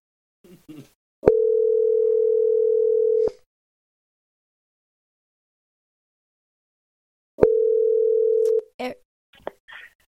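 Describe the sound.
A telephone ringback tone plays while a call goes through: two long, steady, mid-pitched buzzing tones, the first lasting about two seconds and the second about one second, with a long silent gap between them and brief faint sounds around them.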